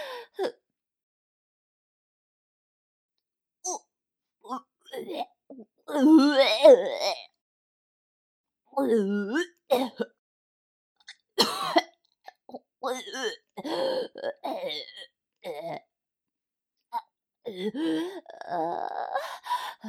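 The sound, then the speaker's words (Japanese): A person retching and gagging, about to vomit: irregular strained heaves, groans and gasps separated by quiet gaps, with the loudest bursts clustered around the middle. “とても気持ち悪いです。ごめんなさい。私、吐きます。”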